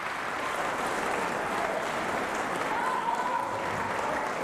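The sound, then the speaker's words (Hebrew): Sustained applause from a concert audience after a performance of Rachmaninoff's Piano Trio No. 2, the Trio élégiaque in D minor, Op. 9. Dense, even clapping continues steadily without pause. “אנחנו שומעים את הקהל מביע את דעתו, שלא נטעה.”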